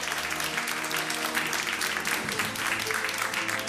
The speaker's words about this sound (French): l'émission est en public et vous allez l'entendre, le public qui est venu nombreux à Bordeaux.